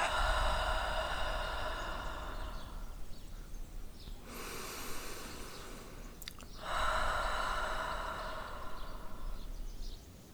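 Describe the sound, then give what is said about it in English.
A long breath drawn in through the nose and then let out, a soft airy hiss during a guided relaxation breathing exercise, heard over a steady background. “A long breath in through the nose and let it go.”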